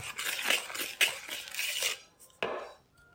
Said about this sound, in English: And in it goes. And we're just mixing in the flour.